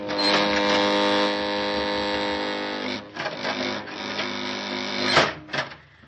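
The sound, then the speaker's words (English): Mine shaft elevator car descending: a loud, steady mechanical hum with a droning whine for about three seconds, then uneven rumbling bursts and a heavy clatter near the end. “Hey, the elevator's coming down on us. We can't make it.”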